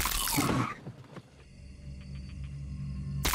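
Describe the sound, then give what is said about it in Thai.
Loud, crisp crunching of a crispy Lotus's brand snack, a dense burst at the start that gives way to a quieter, steady background. “ตกใจอะไรมันแค่กรอบโลตัสกรอบมาก”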